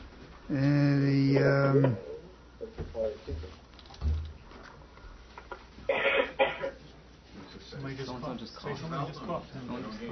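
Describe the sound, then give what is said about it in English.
A brief cough from someone in a lecture audience cuts in among the lecturer's ongoing speech, a short, harsh burst amid the talk. “Whoever coughed, that was you.”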